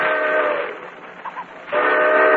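A railroad passenger train starting up sounds a loud, steady whistle with strong harmonics. A long blast fades into a quieter stretch before a second equally loud blast resumes.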